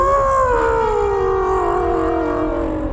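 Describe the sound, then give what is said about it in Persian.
A fictional howling sea shark's howl: a loud, sustained, wavering tone with rich overtones that holds for about three seconds and slowly drifts slightly lower in pitch, heard alone. “گوش بدید، به نظرم داری صدای زوزه هاش میاد.”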